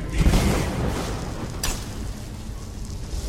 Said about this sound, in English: There she goes. That bloody fire spell.